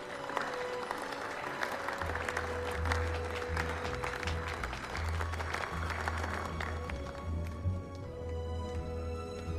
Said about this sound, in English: Her terrified expression melts into a smile as the members of Congress start to applaud.